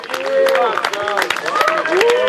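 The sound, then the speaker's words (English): A crowd cheers in the darkness as the last remaining runner of a days-long ultramarathon emerges, loud excited voices rising and falling in overlapping shouts. “A cheer for the last remaining runner as a headlight emerges from the darkness.”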